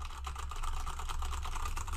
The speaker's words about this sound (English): it's clicky clacky. It's loud sounding. And when I do a lot of work, I like to type out what people are saying. And a lot of times people will tell me a bunch of information. I have to type it out. And the keyboard that they gave me is really kind of a